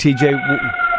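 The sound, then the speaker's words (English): Fire truck siren on a Chicago street, heard as steady, high wailing tones behind a voice speaking during a brief moment. “the sound you hear in the background is a siren. That sounded like a fire truck”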